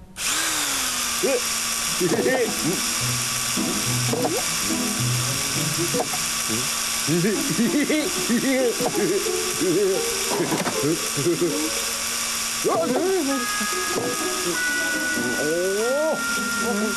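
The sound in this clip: An invented machine feeding pasta whirs and ratchets with a steady motorised drone and repeated mechanical clicks, while people talk over it throughout.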